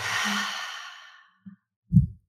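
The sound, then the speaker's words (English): A deep breath in and out during a guided relaxation exercise: a long, airy exhale lasting over a second that fades away, followed by a couple of soft, low breath puffs. “take three big breaths. So first breath in and out.”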